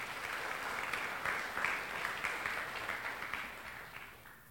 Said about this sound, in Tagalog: Pwede pang palakpakan natin ang Panginoong Jesus?